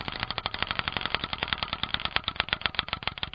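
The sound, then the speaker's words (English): A spinning prize wheel, the wheel of randomness, clicks rapidly and evenly throughout, with many sharp ratcheting ticks in a dense, rattling stream and no talk. “I see you've brought out the wheel of randomness.”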